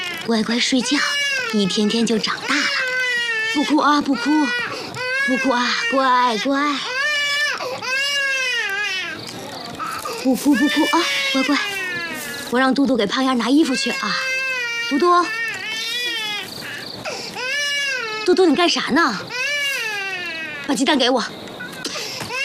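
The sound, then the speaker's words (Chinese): An infant cries without letup in repeated high, wavering wails that rise and fall in pitch, while an adult voice talks soothingly over the crying. “胖丫不哭不哭啊，小胖丫真听话”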